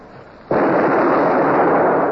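A ship's cannons firing a broadside: a sudden, loud blast breaks in, then a dense, roaring rumble holds steady and heavy until the end.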